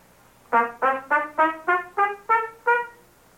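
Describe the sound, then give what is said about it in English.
Eight short, detached staccato notes on an instrument, evenly spaced and clearly separated by brief gaps, each note a crisp, clean attack that quickly fades. “we can also play short notes. We call that staccato playing.”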